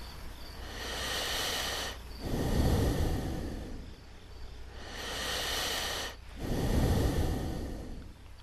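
Two slow, deliberate breaths, each a long airy inhale followed by a heavier, rougher exhale. The cycles come in an even, unhurried rhythm with no speech.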